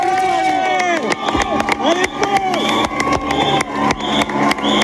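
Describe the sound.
Roadside crowd cheering as a Tour de France stage passes through Cadillac, with an enthusiastic cycling fan among many excited shouts, yells and scattered claps, loud and continuous throughout.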